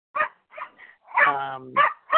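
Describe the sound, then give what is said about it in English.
Dogs barking in a quick, uneven series of short, sharp barks, with one longer, drawn-out tonal call near the middle. “those are not my dogs”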